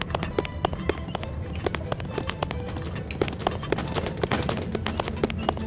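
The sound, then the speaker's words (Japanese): Footsteps in a video game: many quick, sharp taps in a steady running rhythm over a constant low background hum. “これはね足音っぽく聞こえるけど”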